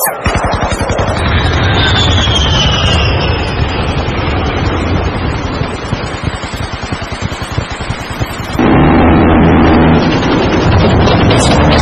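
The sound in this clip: An artillery fire sound effect: a loud, dense barrage of rapid repeated blasts runs for about eight seconds, then gives way abruptly to a steadier, lower rumbling roar.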